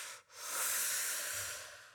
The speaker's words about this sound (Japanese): 深呼吸、深呼吸。